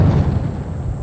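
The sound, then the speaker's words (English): Sonic boom from a plane breaking the sound barrier, heard as a deep, loud rolling rumble. It holds steady with no sharp onset, then eases off slightly. “That's the sound of a sonic boom created by a plane breaking the sound barrier.”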